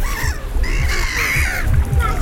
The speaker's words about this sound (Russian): Чайки тоже чувствуют себя пока здесь свободно.